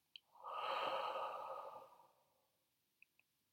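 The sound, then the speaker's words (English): A single long, deep breath taken as part of a relaxation exercise: a soft airy rush swells, holds and then fades away, with a faint click before it and two small clicks after it. “take a deep breath. Make it the biggest breath you've taken all day. In and out.”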